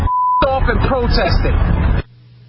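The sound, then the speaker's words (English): A short, steady, high censor bleep opens, then loud speech runs for over a second before cutting off into a low, steady hum. “Okay, what you could get there between the beeps.”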